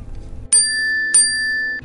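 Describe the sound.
A bell signals the end of a bidding call at an auction. It gives two bright, ringing dings, each sustaining a clear metallic tone that slowly decays.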